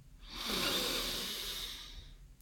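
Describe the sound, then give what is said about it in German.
One slow, deep breath, heard as a soft, airy hiss that swells and then fades over about two seconds, quiet and alone with no talking. “Atme einmal tief ein”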